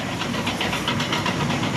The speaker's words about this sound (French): Voilà, là c'est un tracteur qui passe sous notre nez. Un deuxième poids lourd là qui passe.